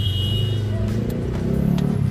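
A car engine hums low and steady while the car is being parked, a continuous rumble with a faint higher whine above it.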